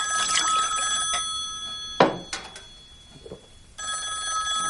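A telephone rings unanswered in two long ringing bursts separated by a quieter pause holding a few short knocks and clinks.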